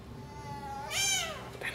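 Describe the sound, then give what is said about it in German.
A house cat meows once, a loud, drawn-out and bright cry that swells and fades within half a second, with a quiet household background around it. “dann bändig ich die Katze mal hier so, alleine. Katze. Eine schleichende Katze.”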